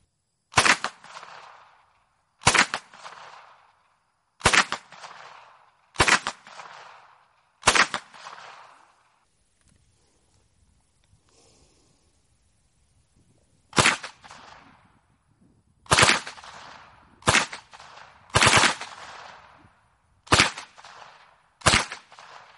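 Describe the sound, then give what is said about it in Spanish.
Sharp, loud gunshots from a restored Beretta MAB 38 submachine gun being test-fired, a series of cracking reports at uneven intervals with a quiet pause midway before the firing resumes. “disparando tiros individuales y luego en ráfaga. Los audios son modernos, de gente que restaura y hace pruebas con estas armas y luego los cuelga en la red. Beretta MAV-38, el Mitra.”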